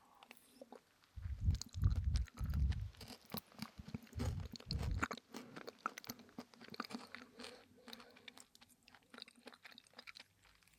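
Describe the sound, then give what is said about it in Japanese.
Chewing of rice crackers that have gone soft, with loud, thick crunching bites packed into the first half, then quieter, wetter chewing that continues to the end with no talk. “おせんべいが柔らかくなってきましたね。”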